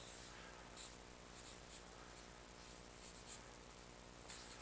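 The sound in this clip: Pen scratching as someone writes by hand, a faint, continuous scraping and rubbing texture that runs steadily throughout with small irregular strokes and no talking.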